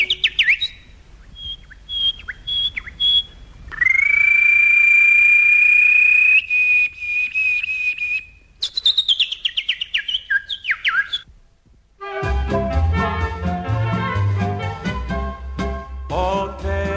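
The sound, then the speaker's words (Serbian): Birds chirp and sing in a lively morning chorus of varied whistles and short tweets, including one long sustained whistled note, before a busier, denser passage takes over near the end. “A u 7 časova i 5 i po minuta vreme je da cvrkutom ptica probudimo i najmlađe.”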